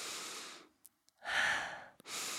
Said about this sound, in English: I can breathe through my nose right now. Listen.